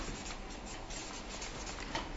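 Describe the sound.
Quiet scratching of a pen writing on paper, continuous soft strokes with a small tap near the end.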